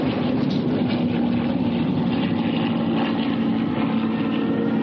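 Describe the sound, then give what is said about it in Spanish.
A World War II propeller warplane drones overhead as it flies toward people running along a gully, a steady, loud, continuous engine roar with no break and no voices. “Un avión vuela hacia ellos que corren por la vaguada.”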